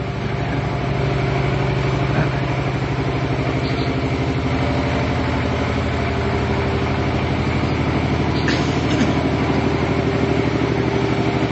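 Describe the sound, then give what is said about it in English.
A motorized rickshaw engine drones steadily throughout with a low, buzzing rumble that stays loud and even, with no voices. “that's the slowest moving rickshaw I've ever heard of. What if the guy's pushing? Yeah. Yeah, well, they put those motors.”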